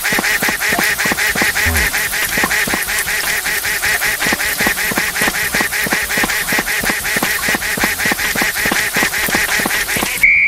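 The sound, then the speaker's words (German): A video game duck quacks continuously in rapid, evenly spaced nasal bursts, loud and buzzy, repeating for about ten seconds without pause and with no one talking over it. “Komische Ente.”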